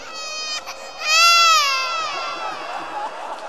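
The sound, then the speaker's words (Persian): A baby cries in a loud, strained wail that swells to a peak and then trails off into a wavering, whimpering sob over a faint background hum. “بچه به گریه بیافته هر کاری بکنی نمیتونی ساکت بگیر اینه برسونی به مادرش”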